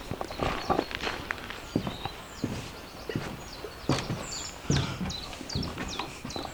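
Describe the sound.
Footsteps walking into the Rotkehlchenhütte bird hide, a steady run of soft thudding steps, with high birdsong chirps scattered through the background.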